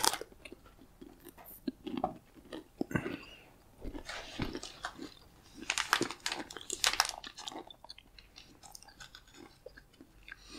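Crunchy chewing of a Thai shrimp chip snack, tom yum kung flavour: many crisp, irregular bites and munches come in bursts, alone with no talk.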